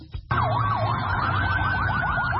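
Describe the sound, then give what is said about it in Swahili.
An ambulance siren at Rafah as wounded from Gaza are carried away. After a brief burst of noise it sets in loud, with slow rising and falling wails that quicken into a rapid yelp over a low steady drone. “Gari za kubeba wagonjwa zimeonekana zikiwasafirisha majeruhi, huku maafisa wa afya wakitoa huduma ya kwanza kwa majeruhi.”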